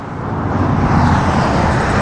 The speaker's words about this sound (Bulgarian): от автомагистрала Тракия, където трафикът е изключително интензивен и в този час.